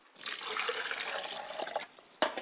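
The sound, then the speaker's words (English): Liquid poured out as a libation in a steady splashing stream for close to two seconds, falling quiet briefly before one short, louder splash at the end. “I pour libation to the west.”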